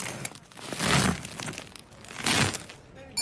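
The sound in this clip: A knife cuts through a crusty farmhouse loaf with two long, rasping, crackling strokes through the crust. The sound is fairly faint and heard alone.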